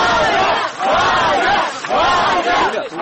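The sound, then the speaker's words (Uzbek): A crowd of colleagues and activists cheers outside the Moscow police investigative department building as journalist Ivan Golunov is released. The loud, roaring cheers rise in three swelling waves, with brief dips between them. “Moskvadagi Ichki ishlar vazirligi tergov bosh boshqarmasi eshiklari oldida uni o'nlab hamkasbi va jurnalistning ozod etilishini talab qilib kelayotgan faollar olqishlar bilan kutib oldilar.”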